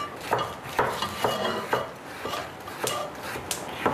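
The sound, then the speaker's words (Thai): A knife slices salad ingredients into smaller pieces for a Thai spicy salad (yam): many crisp, evenly spaced cuts tap against the board in a steady rhythm, with light clinks of kitchenware. “อันนี้มันจะใหญ่ไปเราก็ซอยอีกครั้งนึงให้เล็กลงนะคะ ค่ะเพราะอันนี้เป็นเครื่องยำละ”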